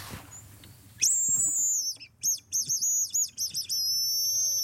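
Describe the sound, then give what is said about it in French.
A great tit calls in a run of high, bright notes that rise and fall. The phrases repeat rhythmically and stand out clearly against a quiet background, with no talking. “Et oui, et c'est la mésange qui nous répond.”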